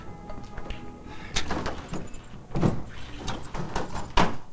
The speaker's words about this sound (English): walks out the door.